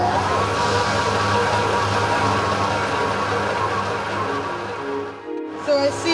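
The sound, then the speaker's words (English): A stand mixer kneads dough while small pinches of butter are added, giving a steady, loud, whirring motor drone that runs unbroken and dips briefly near the end. “Basically, I'm going to add small pinches of butter to the dough whilst it's on a mixer, and making sure that each time you add the butter, it's fully incorporated.”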